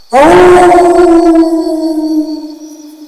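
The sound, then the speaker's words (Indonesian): A wolf gives one long, loud howl that starts with a breathy rush and settles into a steady, sustained tone. The howl holds for over two seconds, then gradually fades out. “Serigala. Serigala. Wolf. Wolf.”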